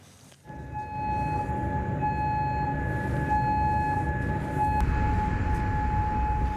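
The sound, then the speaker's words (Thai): An air raid warning siren sounds in Kuwait City. It starts abruptly and holds a loud, steady, unwavering tone over a constant low rumble of background noise until the end. “วันนี้เสียงเตือนภัยทางอากาศดังขึ้นในกรุงคูเวตซิตี้”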